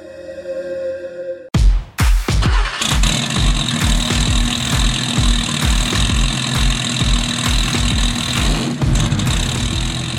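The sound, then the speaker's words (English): A 1987 Porsche 911 Turbo engine rumbles loudly at idle with a steady, throbbing pulse that cuts in abruptly after a short, different lead-in sound. No one speaks. “That is Steve Kraft and his 1987 Porsche 911 Turbo. Oh my God, what a incredible car. And he sent sounds of it in a couple weeks ago,”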